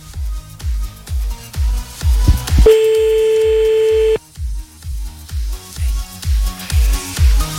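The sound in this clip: A telephone tone as a caller phones someone back: one steady tone of about a second and a half, heard over a pulsing music beat that runs throughout.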